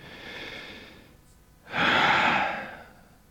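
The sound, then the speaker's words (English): A deep breath drawn in and then let out during a medical checkup with a stethoscope: a soft, airy inhale, a short pause, then a louder, longer exhale that fades away. No one speaks. “Now I want you to take a deep breath, then breathe out.”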